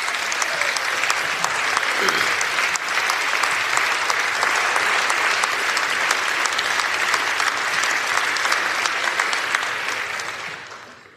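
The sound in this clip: Audience applause in a state House chamber, dense and loud clapping that holds steady for about ten seconds before fading out.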